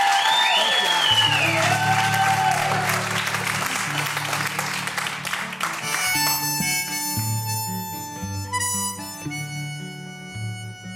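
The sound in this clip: An audience applauds to welcome two performers, a dense, steady clatter of many hands clapping. Instrumental music starts partway through and carries on under the clapping.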